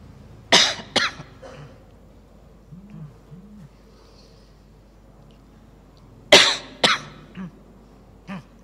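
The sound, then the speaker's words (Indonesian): A few sharp, abrupt coughs come in two separate clusters, with long quiet gaps between them and a faint final cough near the end. No talk accompanies them. “Batuk.”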